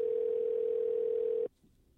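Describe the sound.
A steady telephone tone while placing a call, one unbroken mid-pitched hum lasting about one and a half seconds before cutting off abruptly into faint line noise.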